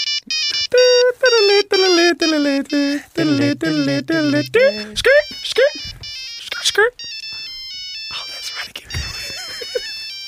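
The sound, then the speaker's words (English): An old Nokia-era mobile phone ringtone, like that of a Nokia 3000, plays a loud monophonic melody of quick, bright beeping notes that jump between pitches. People then talk as it ends. “That was our ringtone back in the days, kids, if you're listening.”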